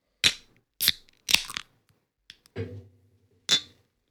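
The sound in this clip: Drink cans or bottles clink together in a toast to a late mother: several bright, sharp clinks in an irregular rhythm, with a duller, lower knock among them.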